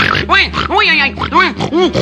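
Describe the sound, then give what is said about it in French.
A voice imitates a wild boar squealing as it bursts from its hiding place, giving a few loud, nasal, grunting squeals that each rise and fall in pitch in quick succession. “Cria le sanglier en sortant de sa cachette.”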